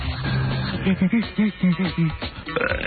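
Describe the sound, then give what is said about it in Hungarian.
A burp sound effect scratched like a DJ record, cut into a few short, stuttering repeats of a low, throaty tone. “Ez a Scratch-elő büfiző.”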